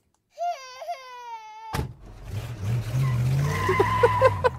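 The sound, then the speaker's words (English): A car screeches off with squealing tyres as a mother of three leaves a Boxing Day sales car park after a long search for a space. A wavering, child-like wail comes first, then a loud rush of engine and tyre noise. “It's the sound of a mother of three screeching off after 45 minutes of looking for a car park in the Boxing Day sales”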